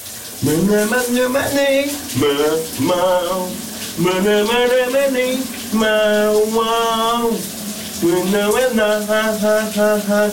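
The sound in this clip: A shower runs in a bathroom, its steady hiss of falling water continuous beneath a man singing loudly in long sustained phrases with short breaks between lines.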